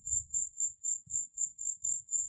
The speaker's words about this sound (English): Many crickets. There's a cicada or a locust. In this tree that goes off every so often.